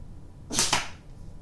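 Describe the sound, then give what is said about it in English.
A dart shot at a 70 millimetre target from 5 metres: one short, sharp hissing burst that is quickly followed by a second brief burst, then quiet. “So 5 meters away, 70 millimeter target. I'm going to shoot 5 darts.”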